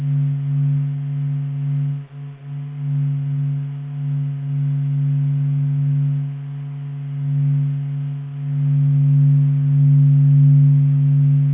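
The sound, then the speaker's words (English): A steady low hum made from the Sun's vibrations, sonified and sped up 42,000 times. It is a continuous drone of a few stable tones that gently swells and dips in loudness throughout, with no voices. “So this is a lovely humming sound. It's the sound of the Sun just humming, you know, just sort of, you know, just vibrating.”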